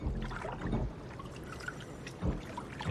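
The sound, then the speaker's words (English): Swimming through a pool toward the diving board: soft sloshes and splashes of water from the strokes, with two fuller surges standing out above a low, continuous watery wash. “With her arms stretched out, Izzy swims toward the figure under the diving board.”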